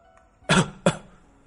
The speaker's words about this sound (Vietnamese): Tề Nguyên lão đạo đột nhiên ho khan một tiếng, trong miệng phun ra một cục máu tươi.